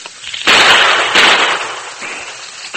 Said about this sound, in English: Fire a shot or two in that direction to cover me